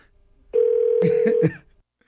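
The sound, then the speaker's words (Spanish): A single ringback tone on an outgoing phone call that goes unanswered, a steady mid-pitched hum lasting about a second, with brief noisy bursts over its latter half before it stops. “no está contestando la llamada. Sí, Vamos a intentarlo ya por última vez”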